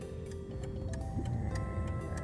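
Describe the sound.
A car's turn signal ticks steadily before a right turn, with sharp, evenly spaced clicks about three times a second over the low hum of the engine while driving.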